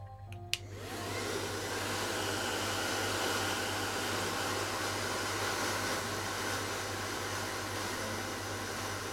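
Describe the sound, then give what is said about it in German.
A hair dryer blows steadily on a cat's fur, a continuous airy whoosh over a low hum. It starts with a brief click and then holds an even, loud level with no voices. “Jetzt drehen wir dich auf links und föhnen dein Fell.”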